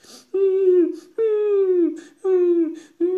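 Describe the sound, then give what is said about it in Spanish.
A girl cries loudly in three long, drawn-out wailing sobs, with a fourth beginning at the end. Each wail is high and voiced and sags slightly in pitch, with short breathy gaps between them. “Chona comenzó a llorar a moco tendido.”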